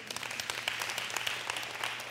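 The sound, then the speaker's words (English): A church audience clapping during a sermon: many hands producing a continuous crackle of individual claps, fairly soft and steady throughout. “You better clap, y'all.”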